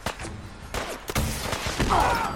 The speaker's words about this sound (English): Get the missile launcher out.